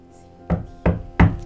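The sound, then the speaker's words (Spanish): Knocking on a door: three firm, evenly spaced knocks, each a loud, dull thud, sounding alone with nothing else in between. “Tocan la puerta.”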